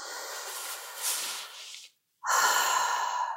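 A deep breath taken with hands over the heart during a calming tapping exercise: two long, airy rushes of breath separated by a short silent pause, the second fuller and louder.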